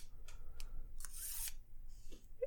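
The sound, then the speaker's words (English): A knife blade is drawn through a sharpener notch, from the heel by the handle to the tip. There are a few short, raspy scrapes and one longer, brighter grinding stroke, all fairly quiet. “all you do is take the knife blade, starting at the back end of the blade, next to the handle, set it down in that notch, and then just gently draw it through that notch all the way to the tip, just like this.”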